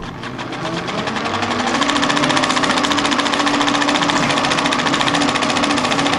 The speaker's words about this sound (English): The projector we're using was a Gaumont Chrono, which was a very popular machine in the 1910s time, used by fairground owners and then in the early cinemas. It's a hand-turned projector, it's made in France,